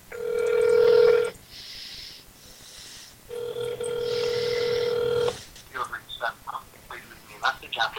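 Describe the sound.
A telephone call rings a few times with a steady tone, then a voicemail voice speaks briefly in short bursts.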